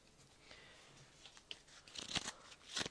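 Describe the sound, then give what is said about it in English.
Real playing cards are handled to mimic opening a card pack, giving crisp papery rustles and crinkles. They start faint and sparse, then grow into louder crunchy bursts near the end, with no talk. “That's fake card noise. That's actually real cards, but fake opening a pack noise.”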